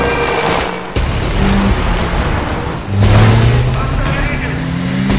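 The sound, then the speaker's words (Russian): A car fitted with a welded metal bull bar accelerates hard toward gates a crowd is pushing against. Its engine roars loudly and steadily, with two sharper surges partway through. “Машина разгоняется и сносит ворота.”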